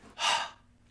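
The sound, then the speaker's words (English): One soft exhale onto a mirror to fog it up: a single open-mouthed breathy hiss that swells and fades, heard alone. “So if we imagine that we have a mirror in front of us, okay, and we're close, and if we want to fog up a mirror, we go like so.”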